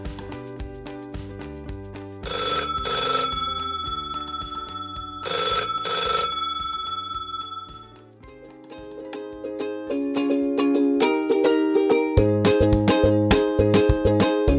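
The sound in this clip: Telephone bell rings twice for an incoming call, two bright, loud bursts of ringing over steady background music that carries on after the rings.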